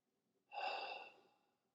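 A single slow exhale during a guided breathing meditation: one soft, airy breath that swells quickly and then tapers gradually to silence.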